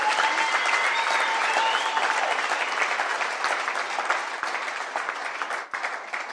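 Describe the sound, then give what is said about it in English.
Dense, continuous applause from a church audience clapping their hands, a loud even patter that holds steady and eases slightly near the end. “can you clap your hands for this book, Church Planting?”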